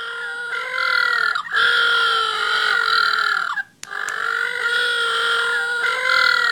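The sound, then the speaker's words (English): Little blue penguins calling, loud, harsh, braying cries with a throaty, burp-like quality. One long run of calls breaks off briefly partway through, then a second long run follows. “Now, if you're wondering what that sound is, that is the sound of little blue penguins.”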